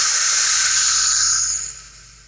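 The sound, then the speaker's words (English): A deep breath in and out taken as a relaxation exercise: one long, loud, airy hiss with no talk, which thins and fades over the final second. “Take a deep breath.”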